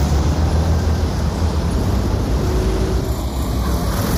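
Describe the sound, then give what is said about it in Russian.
Street traffic with cars standing in a jam forms a steady, dense low rumble, unbroken and without distinct passing vehicles. “Автомобили стоят в пробке.”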